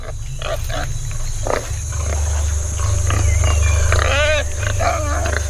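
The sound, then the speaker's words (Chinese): Wild boar piglets foraging with their mother give grunts and a wavering high squeal, heard over a steady low rumble that runs through the whole recording. “是几只野猪幼崽，看起来似乎是不错的目标。他们跟随妈妈正在觅食。”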